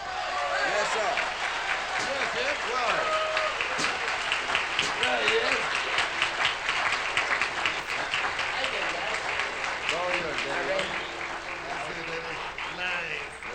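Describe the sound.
An audience applauds to welcome trombonist Kid Ory. Dense, steady clapping fills the whole stretch, with voices talking over it.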